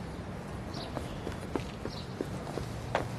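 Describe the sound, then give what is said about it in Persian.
Footsteps of someone heading down stairs in a park: a soft, uneven series of light taps, quiet and without talk. “با دیدن گلی از پله ها میره پایین”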